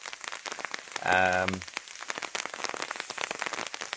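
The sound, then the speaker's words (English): Rain falls steadily on a surface outdoors among bluebells in Longwood, a dense, even patter of drops throughout with a brief voiced tonal sound partway through. “just watching with that rain is making me cold now”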